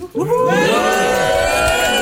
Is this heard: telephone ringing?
no